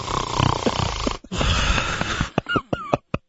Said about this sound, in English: I mean, the snoring gag, really? Really? The snoring, that's all I got. The snoring gag?